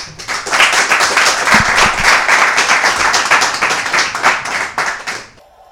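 A studio audience claps for a panel on a Danish cycling program, brisk and loud with many distinct hand strikes in a fast, busy patter, before it thins out and fades to near quiet at the end.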